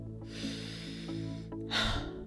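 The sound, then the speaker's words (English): A single deep breath taken and released during a guided breathing exercise, a brief airy rush near the end over a soft, steady tonal background. “And now breathe in and release.”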